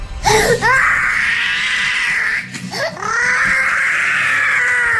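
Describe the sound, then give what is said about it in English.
An 18-month-old girl crying in a tantrum: two long, loud, high-pitched wails separated by a brief catch of breath. “I'm live on the scene, and there's a baby crying.”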